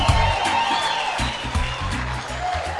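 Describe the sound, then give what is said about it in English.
Audience clapping at a church gathering, a dense wash of hand claps layered over music with a pulsing bass, steady in level for the few seconds heard. “Clap your hands for her all the way from Bulawayo.”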